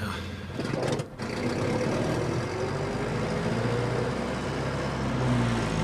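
Steady engine and road rumble of a car driving along a country road at night at about 50 km/h: a continuous low drone with broad hiss over it and a brief dip near the start. No voices.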